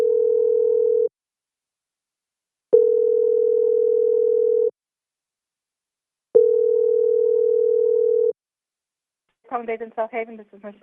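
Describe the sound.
Telephone ringing heard down the line as three long, steady, mid-pitched tones separated by short silences. A voice begins speaking just after the last tone.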